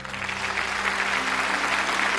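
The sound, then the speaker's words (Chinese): An audience at a press conference applauds in a continuous, full roar of clapping that stays level throughout. “我想响起的每一次掌声都不止给这十位最美的交通人物”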